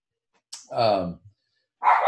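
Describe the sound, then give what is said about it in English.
Dogs bark indoors in two short bursts: a drawn-out yelping bark, then another loud bark after a brief pause. “Sorry, there goes my dogs. Give them a second to stop barking.”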